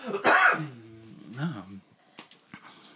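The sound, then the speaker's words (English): A man with a throat irritation clears his throat in a harsh, noisy burst, followed by a low voiced rumble and a few faint short clicks. “I am having a throat thing right now.”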